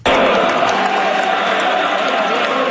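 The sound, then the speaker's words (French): Party supporters cheer and applaud to welcome Christine Fréchette at a Coalition Avenir Québec general council in Lévis, with a sports-style jingle playing. The loud, dense crowd noise starts at once and holds steady for nearly three seconds. “Christine Fréchette est accueillie par ses militants sur une ritournelle sportive.”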